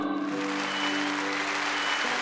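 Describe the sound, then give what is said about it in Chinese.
Applause at a film awards ceremony as a best supporting actor winner is announced, a thick, continuous roar of clapping at a steady loud level with a sustained tone running beneath it. “铺天盖地的掌声响起，与此同时观看直播的粉丝们也欢呼出声。”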